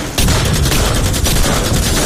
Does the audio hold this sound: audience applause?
no